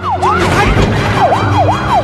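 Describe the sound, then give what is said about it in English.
Police car siren during a road chase: a loud wail that sweeps up and down again and again in quick, regular cycles. “watch out for the police car, Dad, watch out!”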